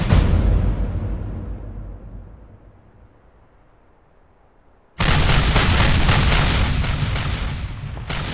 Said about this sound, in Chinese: 要不要停止炮击，命令步军推进？ 不用增加无谓的伤亡，继续炮火掩盖就可以。